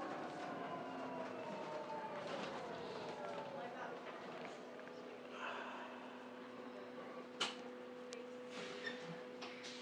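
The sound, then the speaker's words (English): Electric train arriving at a railway station: a steady low drone with a higher humming tone throughout, a few sharp clicks and thumps near the end, and indistinct talk in the background. “Just arriving at Waterloo, and I've got about 3 minutes to make the train.”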